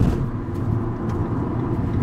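Car driving on the freeway, heard as a steady low road rumble and engine drone with no breaks or changes, fairly quiet and even throughout.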